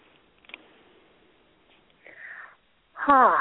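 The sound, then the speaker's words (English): A deep breath: a single soft, airy inhale of about half a second, after a quiet stretch, followed by a voice starting to speak. “Taking a deep breath.”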